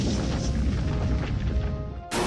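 A video game's Earthquake attack effect gives a loud, dense rumbling crash that roars on for about two seconds. It cuts off abruptly, and a fresh burst of noise begins.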